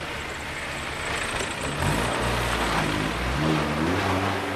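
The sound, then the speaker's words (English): A car, a red Land Rover, drives off: a low, steady engine hum grows louder partway through and holds as the vehicle pulls away, with no voices. “Christine smiles and walks up to the car as Alan drives off looking rather miffed.”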